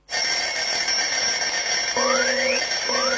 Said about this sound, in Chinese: 关上了闹钟，我伸一个懒腰